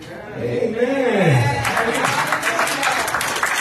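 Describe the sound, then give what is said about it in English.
Congregation applauding in church as a guest is welcomed: a voice first, then dense clapping that swells in and continues steadily to the end. “Put your hands together for my sister.”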